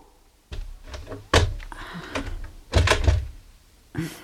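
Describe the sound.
Someone tries a locked door, the handle and door rattling without opening, with a few dull knocks and thunks spaced out irregularly, moderately loud against quiet surroundings.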